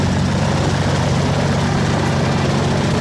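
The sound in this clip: A small propeller airplane engine at start-up makes a loud, steady, rumbling roar that fills the whole clip without breaks or voices.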